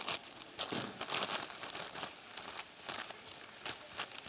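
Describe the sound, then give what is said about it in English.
Crinkling and crumpling of a torn bag being folded back up: many quick, irregular rustles and crackles, fairly faint, with no voices. “Look what happened to your bag. And I want you to try real hard right now to fold that bag back up.”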